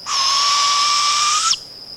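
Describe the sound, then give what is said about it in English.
A female barred owl calls for a mate with a single sustained, steady, high-pitched note lasting about a second and a half that cuts off abruptly, alone with no talk. “That's the sound of a female barred owl calling for a mate.”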